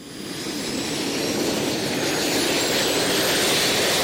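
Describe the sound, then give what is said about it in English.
Jet engines strapped to a person's arms, a Gravity Industries jet suit, give off a loud, continuous roar. The broad whooshing blast swells in over the first half second, then holds steady and even without a break. “That's the roar of jet engines strapped to the arms of inventor Richard Browning of Gravity Industries.”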